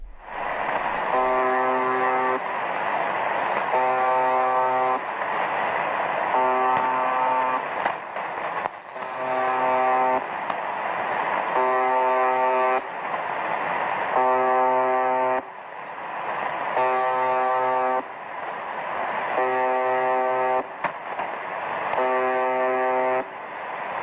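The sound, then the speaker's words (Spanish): An electronic buzzer sound effect sounds many times in a regular cycle, each a loud, buzzy, horn-like tone lasting about a second and separated by short pauses, with no voices. “esto simplemente se va repitiendo una especie de pitido, curioso.”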